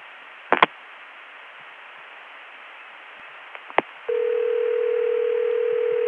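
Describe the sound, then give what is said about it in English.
A digit being dialed on a long-distance telephone line between Atlanta and Chicago: a few sharp clicks over steady line hiss, then a steady tone starts abruptly and holds to the end. “Now I'll dial another digit.”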